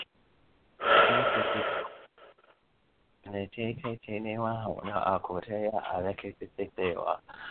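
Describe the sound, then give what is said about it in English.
A deep breath, one long, wheezy, rushing breath lasting about a second, followed after a short pause by a person talking. “Breathe in through your nose, out through your mouth.”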